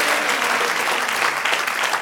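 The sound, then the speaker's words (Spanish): A church audience applauds during a worship service, giving a thick, continuous roar of many clapping hands at steady, fairly loud volume through the whole short stretch. “Un aplauso al Señor.”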